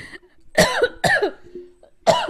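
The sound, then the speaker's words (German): A woman coughs after swallowing the wrong way in excitement, with three loud, harsh, partly voiced coughs separated by short gasping pauses and faint breathy sounds. “Entschuldigung. Oh oh. Ja, direkt verschluckt vor Aufregung.”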